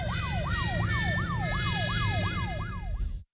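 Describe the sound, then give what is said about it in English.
A police car siren wails on a Washington, D.C. street: loud, quick rising-and-falling sweeps repeat about three times a second, continuous and alone, then cut off abruptly at the end. “What's that sound? That, Anna, is the police.”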